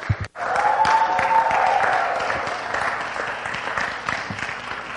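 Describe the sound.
Applause fills a church as a visiting pastor is welcomed to minister for the evening, a steady rush of clapping from the audience that holds strong and then eases off slightly toward the end.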